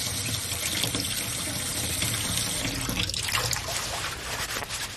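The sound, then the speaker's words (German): Running tap water pours over a leafy green being rinsed in a sink, a steady, even stream with light splashing that continues without a break. “Moment, ich wasche mal eins ab und teste.”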